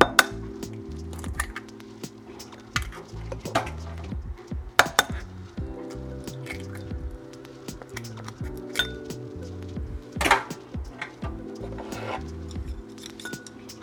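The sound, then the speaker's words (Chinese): Repeated clinks of a utensil against a bowl as two eggs are beaten for a Korean seafood pancake. The quick, uneven taps run throughout over steady background music. “最后呢，我们来打蛋。蛋的部分我们打两颗。”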